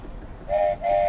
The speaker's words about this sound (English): Okay, everybody, that was the train ride. Everyone enjoyed the train?